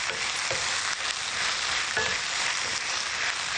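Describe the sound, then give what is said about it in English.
Food sizzling in a frying pan as it is stirred, a steady bright hiss running throughout with a few soft scraping strokes of the utensil, no voices. “Stir this up.”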